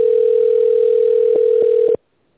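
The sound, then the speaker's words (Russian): A telephone ringback tone plays while a call is transferred to an administrator: one steady, loud tone holds for about two seconds and then cuts off, with a few faint clicks just before it ends. “Или оставайтесь на линии для соединения с администратором. Вызов переводится на администратора.”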